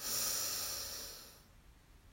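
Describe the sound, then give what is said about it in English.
A deep breath drawn in during a guided relaxation breathing exercise: one long, airy inhale, loud at the start and fading away over about a second and a half, with no talking. “Breathe in, our last breath in together. Breathe in.”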